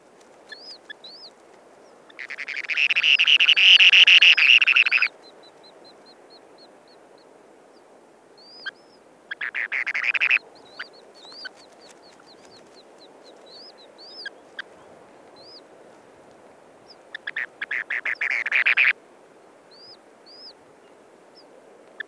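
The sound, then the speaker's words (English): Spoon-billed sandpiper and chicks hatched only hours before call from their nest bowl: high thin chirps repeat throughout, broken by three loud buzzing trill bursts, the first and longest lasting a few seconds. “So that's the spoon-billed sandpiper and chicks in their nest, recorded by Garrett Vinn.”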